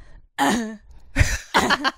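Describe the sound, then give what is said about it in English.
A voice imitates a mother's habitual fake cough with a short voiced, throaty sound followed by a few rough, breathy cough-like bursts, moderately loud and alone. “A fake cough. That's my mom's fake cough.”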